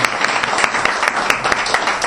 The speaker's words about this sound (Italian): Un applauso a voi.